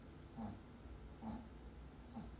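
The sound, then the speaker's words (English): A dog snores faintly in three slow, evenly spaced snorting breaths, each a soft rasp rising briefly above a quiet background. “That's my dog snoring. That's crazy.”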